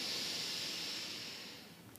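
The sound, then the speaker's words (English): A slow inhale through the nose during a guided meditation: a soft, steady, airy hiss that gradually fades, with no talking. “So let's go ahead and start and breathe in through our nose,”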